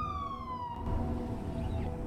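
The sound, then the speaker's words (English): A siren from a police car pulling away from outside a block of council flats at night: a steady siren tone slides downward, then cuts off abruptly, leaving a low rumble. “At night, a police car parked outside a block of council flats pulls away.”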